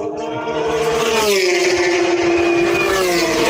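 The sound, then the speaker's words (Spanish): Racing cars run their first official tests at a race circuit, their engines forming a loud, sustained drone with a steady, slightly wavering pitch throughout. “Las primeras pruebas oficiales, Carlos Miquel, en el famoso Mad Ring.”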